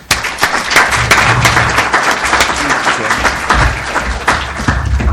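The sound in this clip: Sustained audience applause welcoming an ambassador before his prepared remarks, a dense, steady wash of clapping that stays loud for the whole stretch with no voices over it.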